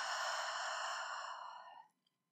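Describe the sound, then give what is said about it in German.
A slow, deep exhale during a breathing exercise, one long airy breath that holds steady and then fades into silence. “Nochmal tief einatmen und ausatmen.”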